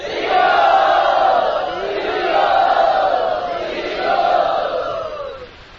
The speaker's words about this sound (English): So let us welcome Rene Mataji to Pune Yatra by loudly chanting.